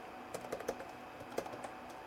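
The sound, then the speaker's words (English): Typing a Skype name on a computer keyboard: several quick, faint keystrokes in an irregular run of soft clicks over low background hiss. “Now I'm going to just type in”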